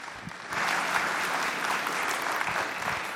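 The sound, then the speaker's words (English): A church audience applauds to welcome a preacher. The clapping swells in after a short quiet start, then holds as steady, dense applause to the end. “I'm going to invite Rachel up. With me up here, so let's give them a warm welcome.”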